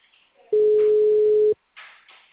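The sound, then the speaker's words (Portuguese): Telephone ringback tone on an outgoing call: a single loud, steady buzzing tone of about one second, with faint noises before and after it. “Tá chamando ainda.”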